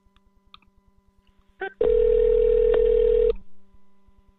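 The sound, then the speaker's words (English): A telephone call being placed: faint ticking and a couple of short beeps, then a loud, steady single-pitch tone held for about a second and a half before it cuts off. “All right, bringing on Makia Freeman, dialing in right now.”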